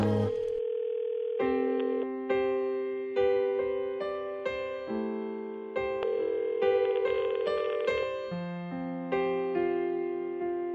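A telephone call rings out as a run of sustained electronic tones, each note stepping to a different pitch in a steady, evenly loud, melodic sequence.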